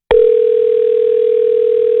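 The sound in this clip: Telephone tone heard while placing a call: a brief click, then a steady, loud, unbroken mid-pitched electronic tone holding for about two seconds.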